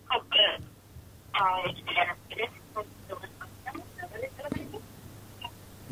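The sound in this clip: Telephone dialing on a call being placed, with short tonal bursts early on and a run of small clicks afterward, mixed in with people talking.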